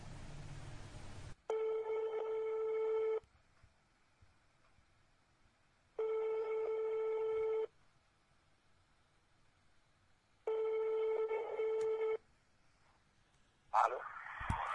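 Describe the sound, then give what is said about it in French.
Ringback tone of a telephone call being placed to Yaoundé: three long buzzing tones separated by silent pauses, with a brief noisy burst before the first tone and a short crackle near the end. “Alors nous allons contacter Ismaël Don maintenant depuis Yaoundé dans un instant.”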